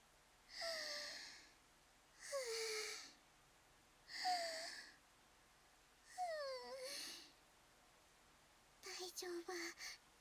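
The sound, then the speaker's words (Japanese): Deep calming breaths: four long, audible breaths, each trailing off in a faint voiced sigh that falls in pitch, followed by a short choppy burst of quick breaths. “ちょっと深呼吸しますね。”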